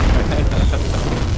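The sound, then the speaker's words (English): A loud explosion sound effect plays on its own as a dense, rumbling roar of noise. It holds steady for about a second and a half, with no clear fade. “hit him with an explosion”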